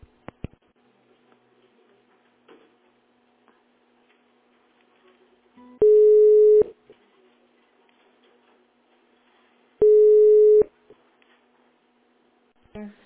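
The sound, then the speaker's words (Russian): Telephone line tone after a call was cut off: two loud, steady, mid-pitched beeps, each just under a second long, separated by several seconds of near silence, with faint clicks at the start. “Я не поняла, вы положили трубку или у нас связь оборвалась с вами?”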